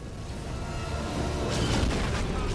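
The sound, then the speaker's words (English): Heavy anti-aircraft flak explosions rumble as a dense, continuous wash of booms, with a cluster of sharper bursts partway through. “The flak is too heavy!”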